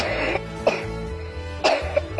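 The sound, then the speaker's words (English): A few sharp coughs into the elbow, somewhat muffled, come in short bursts spread across the moment, with brief quieter pauses between them. “Do you also cough into your elbow?”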